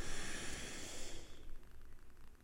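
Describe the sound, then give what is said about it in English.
A person breathing in through the nose: one drawn-out, airy, hissing inhale that holds steady, then fades away after about a second. “we're going to breathe in through our nose and hold for a few seconds. Let's breathe in.”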